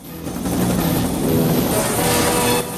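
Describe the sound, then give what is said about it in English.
A helicopter lifts off from the surface of a river in a jungle film scene, making a loud, steady roar of engine and rotor that dips briefly near the end. “Rambo flicks a couple of switches and the chopper lifts off from the river's surface. The chopper trails a plume of smoke as it heads off over the jungle.”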